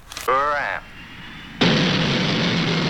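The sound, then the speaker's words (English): A rocket coming in to land, as a sound effect: a short wavering tonal whine gives way to a sudden, loud, steady roar that holds to the end. “And the rocket comes in for a landing.”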